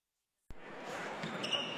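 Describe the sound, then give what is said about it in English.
A basketball thuds once on the court during a Friday night high school game in Iowa, and the quiet gives way to steady crowd noise that carries on afterward. “This may sound like a typical high school basketball game being played on a Friday night in Iowa.”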